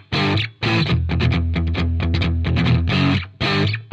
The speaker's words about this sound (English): And then if you listen to the guitar that's in the left channel, he's playing the upbeat, so that sounds like this.